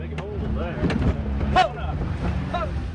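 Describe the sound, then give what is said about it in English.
A battered Land Rover drives down a rough trail and across a shallow ford, giving a steady low engine rumble with rushing, splashy noise under talk. “Visitors have to hike or ride in Curtis's battered Land Rover down a rough trail and across a shallow ford.”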